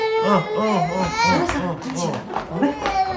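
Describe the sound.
Infant crying in a string of wavering, high-pitched wails, loud and continuous, each cry bending up and down in pitch with brief catches between them.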